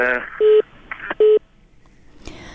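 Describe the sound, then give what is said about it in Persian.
A telephone tone after a call is disconnected: two short, steady, mid-pitched beeps separated by a brief gap, with snatches of voice around them on the line. “تماس تلفنی ما با این شنونده قطع شد.”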